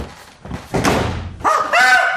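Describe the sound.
A door being opened with a heavy thunk and a rough scraping rattle, followed by a voice speaking.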